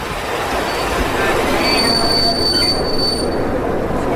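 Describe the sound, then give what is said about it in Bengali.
Thin, high train-wheel squeals ring out over a steady rumble of carriages as a train slows into Hardoi station. The squeals come in partway through and hold for a couple of seconds. “এমনিতেই হরদই station এসে পড়াতে কথা বন্ধ হয়ে গেল”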